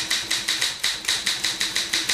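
Typewriter keys are struck in a steady, evenly spaced run of sharp, crisp clacks at a brisk regular rhythm, with no voices.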